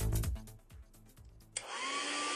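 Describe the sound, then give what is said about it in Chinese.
A Dyson hair dryer switches on abruptly partway through and blows a steady, loud rush of air with a high, constant motor whine. “哎，每次吹完头发又毛又斑，真闹心。 老婆，这是你吹风机没选对，派试手给你新买的戴森吹风机”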